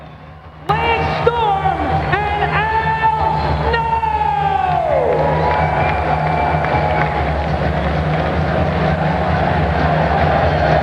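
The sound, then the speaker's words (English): A wrestling crowd erupts after a pinfall at an ECW event, Living Dangerously 1998, as Al Snow pins the ECW champion. A sudden loud roar of cheering starts with a siren-like wail that drops in pitch, then holds as steady crowd noise for ten seconds. “Al Snow wins, Al Snow wins, and the crowd are going mad with these polystyrene heads throwing him into the ring.”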